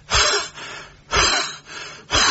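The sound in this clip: A voice imitates a heavy breather on a telephone line: three loud, rasping breath bursts in a rough rhythm, with softer breathy sounds between them.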